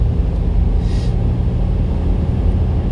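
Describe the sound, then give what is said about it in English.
Low, continuous rumble of a car being driven, a dense engine and road drone that stays fairly even throughout. “Sorry, I'm, I'm driving Mom Dunn's podcast. Y'all know I do that, so I'm accelerating right now.”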